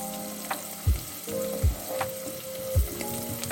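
Browned onion and turmeric fry in a pan with a constant sizzle. Three low knocks and scrapes of stirring break through at irregular intervals, and no voices are heard.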